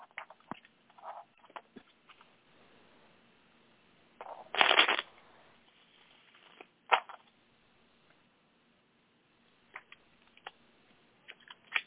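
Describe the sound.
Cards being shuffled during a tarot reading: a few soft riffling bursts, then one louder sustained burst and a sharp snap, followed by sparse faint ticks.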